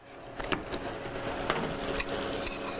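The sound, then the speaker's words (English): Stirring of six tablespoons of dark brown sugar into a butter mixture for ice cream custard, heard as a few soft scraping strokes over a steady, faint background. “To the custard, or to the butter mixture, I should say, excuse me, we're going to actually add 6 tablespoons of dark brown sugar.”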